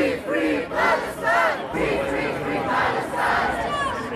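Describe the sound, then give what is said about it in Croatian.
A large crowd in the Eurovision Song Contest audience chants protest slogans, many voices shouting together in loud rhythmic swells that continue without a break. “iz gomile je odjekivala još jedna vrsta pjesme ili, bolje reći, prosvjednih poruka.”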